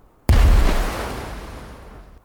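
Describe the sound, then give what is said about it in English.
A hand grenade explodes during a fight against German soldiers: one sudden, loud boom with a deep low-end thump, followed by a long rumbling decay that slowly fades. “Bimet throws her second grenade”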